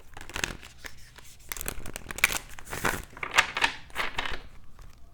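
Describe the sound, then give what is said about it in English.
Cards rustle and crinkle as one is pulled from an oracle deck, a steady run of soft papery scraping and shuffling with small, irregular peaks. “And so the next card I pull for you, Sagittarius, is going to be the Oracle card.”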